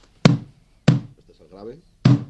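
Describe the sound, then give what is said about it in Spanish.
Crisp slaps on the high tone of a Peruvian cajón drum, three sharp strikes at uneven intervals, with a brief voice between the second and third. “Yo aquí tengo lo que es un cajón peruano, es muy básico, tiene dos sonidos, grave y agudo.”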